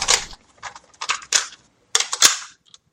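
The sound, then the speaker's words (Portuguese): A blank cassette tape goes into a tape recorder as a few sharp plastic clicks and clatters in an irregular run, with short gaps of quiet between them. “Então deixa eu me organizar aqui e colocar essa fita virgem no gravador.”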